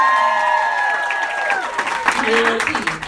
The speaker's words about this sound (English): Give it up for Rena Kam, everybody!